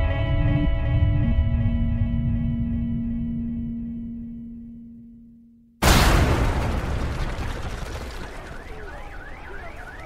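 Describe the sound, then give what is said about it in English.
A bomb explosion at a South Carolina prison complex bursts in as a sudden, loud boom after a sustained droning tone fades away, followed by a long crackling rumble that slowly tapers off. “A bomb had just rattled the complex, and everyone was trying to figure out what happened.”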